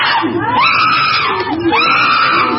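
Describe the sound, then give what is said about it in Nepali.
Excited screaming from zoo animals eating their share of fruit and vegetables: loud, high, wavering cries, with two long calls that swoop up and down in pitch. “चम्पा र चिम्पूले आआफ्नो भाग लिएर खान थाले। केही बेरमै उनीहरू उत्साहित हुँदै कराउन थाले।”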